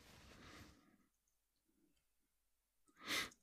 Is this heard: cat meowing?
no